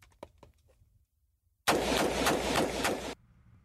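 Gunfire from a rifle shot rapidly in semi-automatic mode: a loud, dense burst of about five quick, closely spaced shots that ends abruptly, with faint noise before and after.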